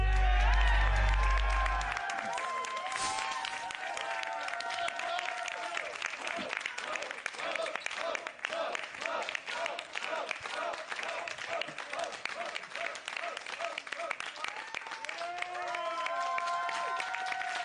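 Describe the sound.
Wrestling fans at an NWA Power event cheer, whoop and applaud a returning wrestler. Constant loud clapping runs under shouting and chanting voices for the whole stretch, with a brief heavier burst at the start.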